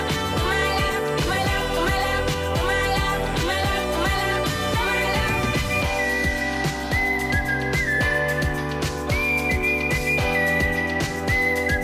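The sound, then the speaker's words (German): Whistling carries a melody over a full, dense music track with a steady percussive beat. The bright whistled line rises clearly above the band in the second half, with no voices. “Da wurde gleich zweimal gepfiffen.”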